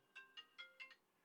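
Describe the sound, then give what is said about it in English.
A mobile phone ringtone sounds as five short, bright electronic tones in a quick, slightly uneven melodic pattern, fairly faint and alone. “Sorry about my phone. Should have turned it off.”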